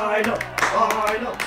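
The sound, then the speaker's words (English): A crowd claps its hands and yells while marching into a viewing area, with a dense, steady patter of claps mixed with shouting voices for the whole moment. “As they march in, they clap their hands and yell,”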